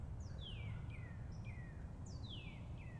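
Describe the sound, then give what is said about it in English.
A male cardinal sings from overhead: several faint, clear, down-slurred whistled notes repeat in short phrases over a low, constant background rumble. “There's a male cardinal singing like right above me.”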